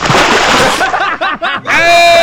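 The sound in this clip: A bucket of water is thrown over someone being woken up, making a broad, hissing splash through the first second, followed by loud wavering voices and a sustained tone.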